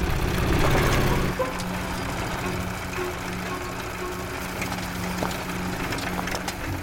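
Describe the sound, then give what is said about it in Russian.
A motorcycle engine drones steadily as an older boy rides across the steppe at night. The low, constant hum is louder in the first second, then continues even and unbroken. “Старший мальчик на мотоцикле едет по ночной степи.”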